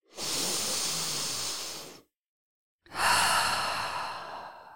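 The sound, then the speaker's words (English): A deep breath: two long, airy, hissing breaths of about two seconds each, separated by a short silence, with no talking. “take a deep breath”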